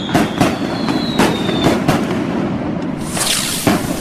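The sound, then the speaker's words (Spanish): Fireworks rockets go off in a rapid run of sharp bangs and crackles, with a thin whistling tone early on. The bursts are loud and irregular, and no voices are heard. “Muchachos, cohetes para el maestro.”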